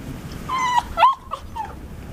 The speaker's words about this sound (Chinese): 看着缩在沙发底的小狗，苏明成只好蹲在地上把它引出来。